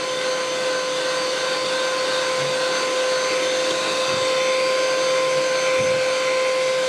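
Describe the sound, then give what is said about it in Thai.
Steady motor whir of a blender churning a liquid mixture until it turns cold: an even, unbroken drone with a thin high whine running throughout, no voices. “เราปั่นจนเย็นเลยนะคะปั่นจนเย็น เลย”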